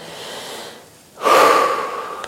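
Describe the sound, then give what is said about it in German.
A person takes a deep breath: a soft breath, a short pause, then a long, louder rush of air with a faint whistling tone that slowly tails off. “Dann atme ich ganz tief, ja?”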